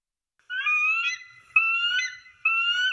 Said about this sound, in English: Well, that's the sound a bald eagle makes.